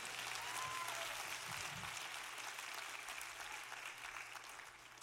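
Dense audience applause at a live show, a steady wash of many hands clapping that holds level throughout and eases slightly toward the end.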